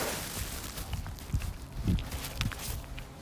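A person walks outdoors on a freezing day after an overnight low of minus two or three. The footsteps fall in a faint, regular rhythm of soft crunching steps about half a second apart.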